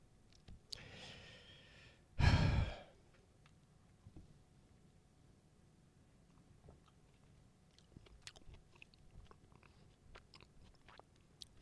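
Biting into and chewing a peach hand pie: one loud, crunchy bite burst comes early, then a long stretch of faint, scattered chewing clicks and mouth sounds with no talk.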